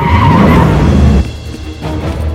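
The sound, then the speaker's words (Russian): A car speeds off in pursuit with a loud roaring engine and a screeching skid. After about a second the sound drops sharply to a quieter rumbling drive. “Затем садится в машину к Фьюри, и они устремляются за Верс и стрелком.”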